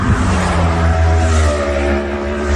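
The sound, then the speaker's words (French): Motorcycles speeding past in groups along the road through the vallon de Vaufrège on La Gineste, a loud, sustained engine drone at high revs with a steady buzzing whine. “C'est des courses en fait, donc c'est-à-dire qu'ils passent par groupe de 7, 8, 10 motos. Et je pense qu'ils ne peuvent pas aller plus vite que ce qu'ils font. Ils sont vraiment à fond et c'est des allers-retours, donc c'est vraiment infernal.”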